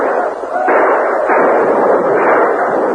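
Gunfire rages in a battle between mounted troopers with rifles and poorly armed Apaches: a loud, dense, continuous roar of overlapping shots. No single report stands apart, and the noise swells slightly after the opening moment.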